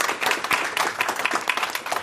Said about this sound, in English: So let's everyone give themselves an applause for the wonderful work that they talked about.